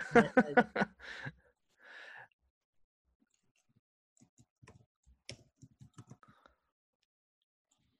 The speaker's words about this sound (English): You're going to have to type that in the chat for me.